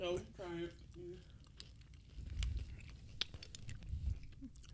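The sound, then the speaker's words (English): Crunchy chewing of food with soft, irregular bites and squishes, moderately faint, after a brief burst of voice at the start. “Oh, we're eating? You got to let me know. This is like communion. Oh, I didn't know. You got to do it together. This is the body. I was not aware that we were eating.”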